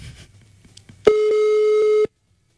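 An electronic telephone tone sounds as a call goes unanswered: one steady, loud beep lasting about a second, with only faint low rumble before it.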